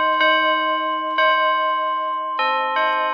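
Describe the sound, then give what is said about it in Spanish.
Church bells ring joyfully on a wedding day: four rich, sustained clangs with long ringing overtones, the first two widely spaced and the last two close together, with no voices. “Las campanas de la iglesia sonaron alegremente aquel día.”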